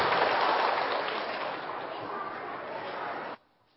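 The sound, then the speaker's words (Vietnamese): Applause from an audience for a singer at a Buddhist Vu Lan ceremony, fairly faint dense clapping that gradually thins out and then stops abruptly just before the end. “Xin quý vị cho một tràng pháo tay để chúc mừng cho ca sĩ Anh Tú.”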